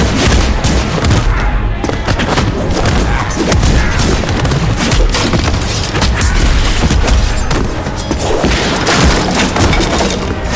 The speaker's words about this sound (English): I took out a small grenade and threw it into the ceiling above me.